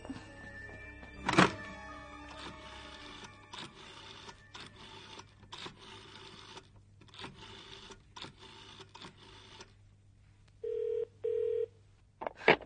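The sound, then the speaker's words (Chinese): A telephone being dialed: a thump, then a run of quiet whirring mechanical bursts, followed by two short, steady tones near the end. “唔得，你打个电话同佢算账先得。”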